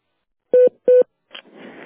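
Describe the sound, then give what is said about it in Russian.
A voicemail signal on a phone line redirected from a busy number: two short, identical mid-pitched electronic beeps, then faint line noise. “Можете оставить сообщение после сигнала.”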